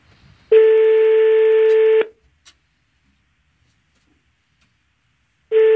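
A telephone ringback tone sounds on an outgoing call to a radio contest winner: one steady, buzzy tone lasting about one and a half seconds, then a pause, then a second tone beginning. No voices are heard.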